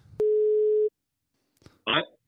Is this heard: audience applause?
no